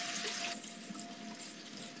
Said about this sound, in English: That's about half the can. Washing beans.